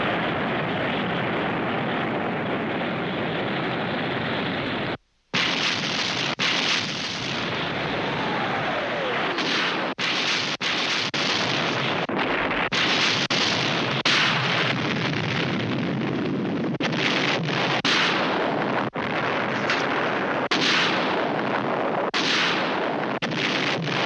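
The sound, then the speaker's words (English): Missile explosions as the missiles strike their target: a dense, loud, continuous roar of blasts and rumbling, broken only by a brief silent gap near the start, with no voices. “Missiles from Delta. On target for Alpha.”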